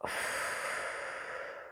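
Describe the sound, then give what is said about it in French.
A single long breath during a guided breathing exercise: a steady, airy rush that starts abruptly and fades slightly toward the end, with no talking. “C'est parti. Inspiration. Expiration,”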